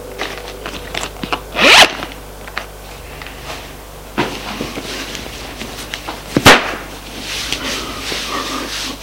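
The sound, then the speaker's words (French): A trouser zipper is undone, heard as two sharp rasping bursts a few seconds apart amid soft rustling and handling of clothing. “Il lui défait son pantalon.”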